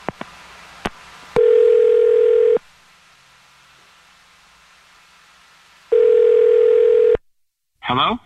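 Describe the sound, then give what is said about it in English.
A telephone call is dialed and rings: a few sharp clicks come first, then two long, steady ringback tones separated by a quiet gap, with a brief voice answering at the very end. “Okay, I'm going to dial his number right now.”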